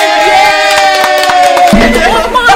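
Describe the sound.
A live studio audience cheers and shouts loudly, the excited voices blaring close enough to overload the microphone in one continuous, brash burst.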